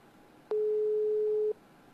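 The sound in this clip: A telephone busy tone sounds during a call attempt: one steady, mid-pitched electronic beep lasting about a second, clean and level, with faint background hiss before and after.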